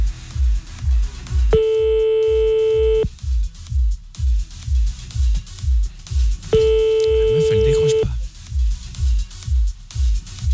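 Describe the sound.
Telephone ringing unanswered, with two long, steady electronic rings separated by a pause, heard over a pulsing rhythmic background.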